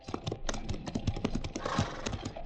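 Hooves of horses clip-clopping at a walk on a long march, a busy run of many uneven knocks heard alone without talk.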